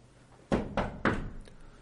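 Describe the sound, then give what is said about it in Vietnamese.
Three heavy knocks on a courtyard door, evenly spaced and dull, each a thudding strike with a short fading tail, followed by quiet. “ở phía cửa viện bỗng vang lên tiếng đập cửa”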